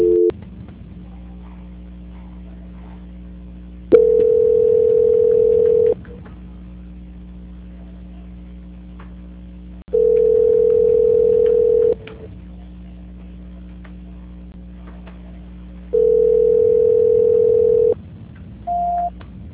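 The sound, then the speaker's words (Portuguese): A telephone line tone plays while a call is being transferred. Three steady tones, each about two seconds long, come roughly six seconds apart over a quiet hissing line, and a brief higher beep closes the sequence. “Tentando transferir a ligação da senhora, tudo bem?”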